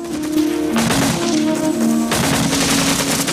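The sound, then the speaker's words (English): Gunfire from a hollow beside railroad tracks near a bridge in a Vietnam War battle: sustained, rapid, loud shooting that runs without pause for the whole stretch. “Nassarv keeps firing from a hollow beside the railroad tracks, while Hatcher, Clark and Diaz run across the bridge.”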